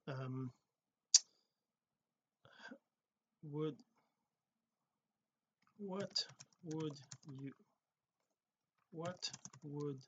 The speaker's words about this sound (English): And I'm going to make this a little longer typing here, 3-4 seconds.